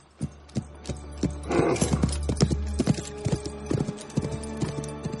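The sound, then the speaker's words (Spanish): Hooves of a sturdy jet-black horse clip-clop as it gallops, with many quick, uneven hoofbeats and a steady low hum beneath the first half. “Va montado sobre un fornido corcel negro azabache. Sus movimientos son ágiles y elegantes pero llenos de fuerza.”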